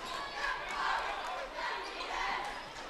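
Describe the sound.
Basketball dribbling as a player brings the ball up the floor in a high school game, Adams against Michigan City. The bounces sit under loud, steady crowd noise while a commentator talks.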